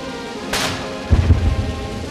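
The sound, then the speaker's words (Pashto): Cannon salute fired at a welcome ceremony at the presidential palace in Manila: a sharp crack followed by a deep, rolling boom that rumbles briefly before fading. “په سرخار منیلا کې ملاکناګ محل یا د فلپاین د صدر ماڼۍ کې ورته د توپونو د سلامۍ سره تود هرکلی ویلې شو”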